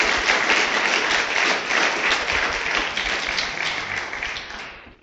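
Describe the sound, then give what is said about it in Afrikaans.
Audience applause for people leaving, with a church audience clapping steadily and densely for about five seconds before the clapping thins and fades at the end. “Baie dankie, kom ons gee vir hulle hande, net soos wat hulle weer uitgaan.”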